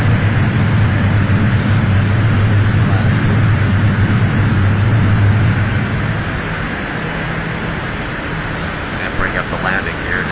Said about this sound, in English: 70 knots. Increased power. 90 knots. Lifting off there. Lift it off.